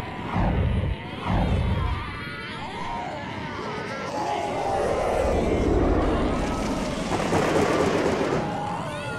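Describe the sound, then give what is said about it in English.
Rough aircraft takeoff: a heavy, rumbling roar with jolting low bursts at first, then a sustained swelling roar with a bright, rattling hiss on top. “Everyone inside, it's going to be a bit of a rough takeoff,”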